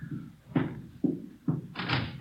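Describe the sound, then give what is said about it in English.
Door sounds during a hurried search of an empty hotel room: three dull, evenly spaced thuds, then a longer, brighter rattling burst, all fairly faint. “Door's open. Let's have a look.”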